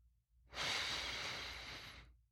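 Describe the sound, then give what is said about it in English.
A slow, steady inhale through the nose during a beginner's meditation exercise: one long, soft, airy breath that swells quickly, holds for about a second and a half, then fades out, with no other sound around it. “We're going to practice by just breathing in through your nose”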